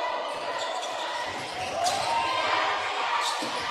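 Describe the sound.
A basketball dribbled along the wing during a game, a few soft bounces on the court floor heard through steady crowd noise and faint voices.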